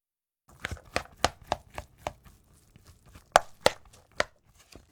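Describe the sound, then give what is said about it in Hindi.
Sushi rice being mixed quickly with a spatula in a large bowl after vinegar, sugar and salt are added gives many sharp, irregular chopping-like taps and scrapes, fairly loud and with no talk. “कफचे से तेजी के साथ चावलों को मिलाएं।”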